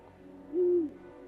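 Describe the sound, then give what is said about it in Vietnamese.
An owl hoots at night near the end of a house: a single low, steady, tonal call lasting under half a second, alone over faint background hiss. “Đêm hôm đó, ở đầu nhà, tiếng cú kêu lên nghe thê lương vô cùng.”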